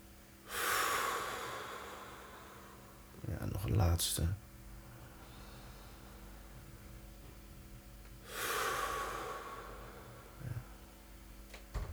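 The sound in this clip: Slow, deep breathing in and out paced by a guided relaxation exercise: long, soft, airy breaths with a short, sharper sniff-like burst between them, separated by quiet pauses.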